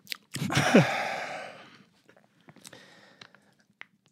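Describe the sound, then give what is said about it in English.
A Capri Sun juice pouch is popped open, a sudden crackling burst that fades over about a second, followed by a few faint crinkles and clicks, with no talk. “You're about to crack open a juice box.”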